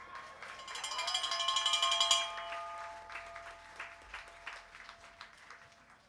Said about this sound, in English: So can we hear a round of applause for them, please?